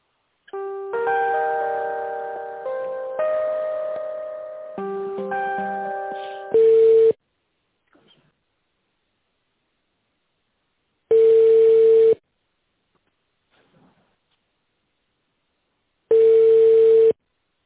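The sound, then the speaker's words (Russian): Telephone line tones as a call is transferred: a short electronic melody of stepped tones, then three long, steady ringback tones separated by stretches of silence. “Так, подождите минуточку, сейчас соединю вас с тендерным отделом.”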